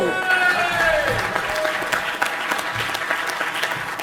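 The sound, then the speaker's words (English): Crowd cheering and applauding at an event in Chicago, with dense, loud clapping and shouts that carry steadily for about four seconds without a break. “Make some noise, Chicago!”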